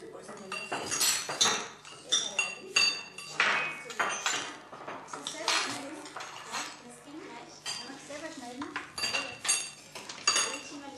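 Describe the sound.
Spoon clinking against dishes: many light, sharp metallic clinks and taps in an uneven rhythm, some louder than others, continuing throughout.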